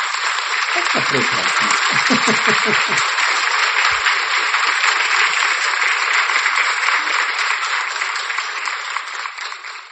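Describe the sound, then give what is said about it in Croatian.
Sustained crowd applause closing an interview with a cardiologist, a dense, even roar of clapping with brief voices near the start, fading toward the end. “Zaslužio si jedan veliki pljesak.”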